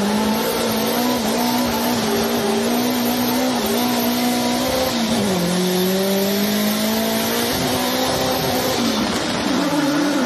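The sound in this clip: Nissan S15 engine revving in a sustained, loud drone that dips and climbs in pitch several times, over continuous harsh tire squeal.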